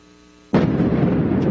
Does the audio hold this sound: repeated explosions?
yes